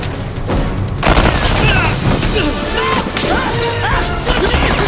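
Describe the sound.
Gunfire and crashing blasts in an audio drama battle in the snow, with rifles firing and a dynamite fuse set. Many loud, dense bursts and heavy impacts sound back to back, with a few sharper crashes standing out.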